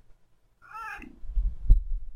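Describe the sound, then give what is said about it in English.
A cat gives a single short, mid-pitched meow with a slight wavering tone, followed by a few low, soft thumps. “Can I kiss my cat? Aren't I allowed to kiss my cat?”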